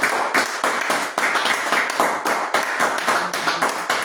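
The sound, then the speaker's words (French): An audience claps in unison during a thanksgiving worship service, keeping a steady rhythmic beat of sharp, loud claps that repeat evenly throughout. “Avant de commencer, est-ce que nous pouvons acclamer la présence de Dieu?”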